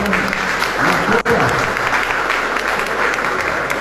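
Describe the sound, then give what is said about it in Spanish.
Audience applause at an environmental fair, a dense, steady roar of many hands clapping throughout, with one brief dip partway through. “Fuertes los aplausos para”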